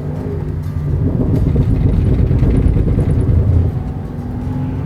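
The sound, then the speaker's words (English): A car driving on the road makes a steady, low, rumbling drone of engine and tire noise. It swells slightly through the middle, then eases back. “Okay, back on the road to MMPR 23. So, yeah, so where was I? Driving, yes.”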